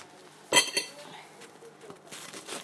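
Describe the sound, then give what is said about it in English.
A knife cuts a tea cake in half: two quick, sharp clinks, then faint scraping and soft taps. “That will do my tea cake. I forgot to cut it in half first, which is what I normally do. Okay, I'll cut it in half now then.”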